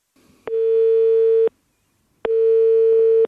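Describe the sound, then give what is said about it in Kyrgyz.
Two long, steady, buzzy telephone ringing tones heard while placing a call, each lasting about a second with a short silent pause between them, alone with no talk. “Татьяна'нын сөзүн угалы, биз ага телефон чалдык.”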